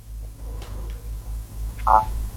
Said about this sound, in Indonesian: Berdering lagi teleponnya.